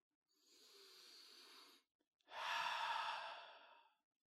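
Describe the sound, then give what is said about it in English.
A deep breath drawn in and then let out: two long, airy, breathy rushes separated by a short pause, the exhale louder and fuller than the inhale, with no talking. “now let's take a nice deep breath and breathe out”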